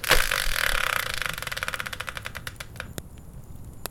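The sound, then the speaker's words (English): Ticking of a spun subject randomizer wheel: rapid clicks at first that gradually space out and slow to a few sparse ticks as it comes to rest. “So let's bring in the subject randomizer, give it a spin, and find out what today's topic will be.”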